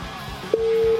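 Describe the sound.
A telephone line tone heard while a call connects: a single steady, mid-pitched electronic tone that starts abruptly partway through and holds unbroken to the end.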